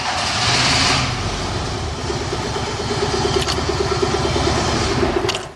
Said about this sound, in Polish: Samochód przez chwilę musiał popracować. Po pierwsze, każdy maluch, który dłużej postoi, musi zassać paliwo ze zbiornika aż do gaźnika